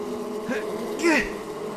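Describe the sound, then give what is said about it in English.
Buzzing of a swarm of bees: a steady droning hum that swells briefly louder near the end. “Let the bees have this one. They need something to thrive off of. Just let it go.”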